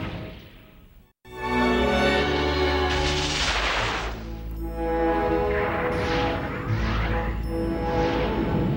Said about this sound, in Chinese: 发动炮击，等一下要彻底掌握各个炮塔的情况，不要打到自己人了。